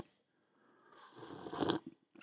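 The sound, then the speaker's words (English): A sip of hot chocolate on a cold day: a soft, airy slurp that swells over about a second and cuts off sharply, followed by a couple of short, faint mouth sounds. “now I need to take a sip of hot chocolate.”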